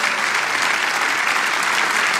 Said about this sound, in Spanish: Vamos a darle un aplauso al Señor, que merece toda la gloria aquí hoy.